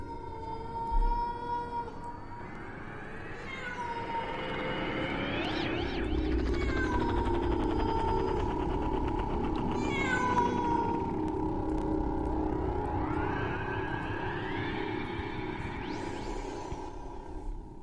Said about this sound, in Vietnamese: người ta nghe tiếng con mèo đứng ở bên trên tường viện kêu lên những tiếng ai oán.